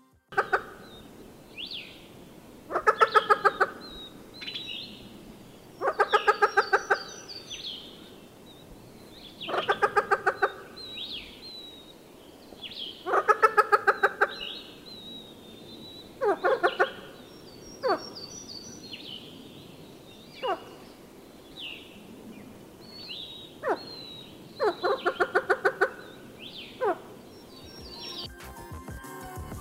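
A bird sings an odd, mysterious song of rasping, clucking bursts. Each burst ends in high chirps and repeats every few seconds in a fairly regular pattern, with quieter single notes between.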